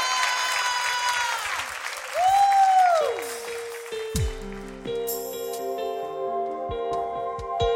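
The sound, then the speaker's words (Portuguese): An audience applauds at a worship service with steady, dense clapping that stays loud throughout, blended with sustained musical tones. “aplauze pentru noi.”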